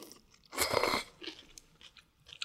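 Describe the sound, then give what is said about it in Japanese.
Crunchy chewing of fresh cucumber slices in a cold sesame-miso soup, opening with a loud, dense burst of crisp crunching and followed by several softer, quicker chews. “きゅうりがパリパリ爽やかでいいな”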